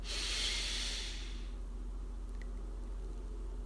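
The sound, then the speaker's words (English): A deep breath drawn in through the nose during a guided breathing exercise makes a single soft, airy hiss that lasts about a second and a half and then fades into quiet. “Let the air circulate throughout your body. And exhale. And inhale again.”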